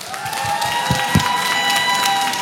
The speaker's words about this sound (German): Nochmal einen fetten Applaus bitte für euch.